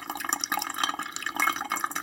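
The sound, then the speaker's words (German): Water pours steadily through an unbleached paper coffee filter with no coffee in it, a continuous splashing rush flecked with small drip-like ticks from start to finish and no voices. “gießen gleichmäßig Wasser hinterher, bis wir auf der gewünschten Menge sind. Das fließt jetzt deutlich schneller durch, als wenn ich Kaffee mache.”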